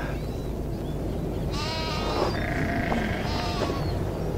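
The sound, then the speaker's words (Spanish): A flock of sheep bleats over a steady background hiss, with a few wavering, nasal bleats rising and overlapping partway through. “Solo estoy paseando mi rebaño.”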